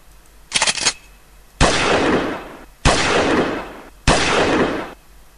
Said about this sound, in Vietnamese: Tràn tiếng súng nổ phá tan cảnh yên lặng.